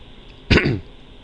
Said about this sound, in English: sorry. Having trouble talking because of the whole cough thing.